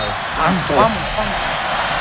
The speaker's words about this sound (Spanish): ¡Que grita el público! España grita. La grada de New Jersey.